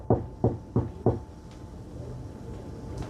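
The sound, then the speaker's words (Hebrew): Knocking on a door: four dull, low thuds in a quick, evenly spaced series, followed by quiet. “הם עוד לא מעכלים את הבשורה, ושוב פעם נשמעו נקישות בדלת.”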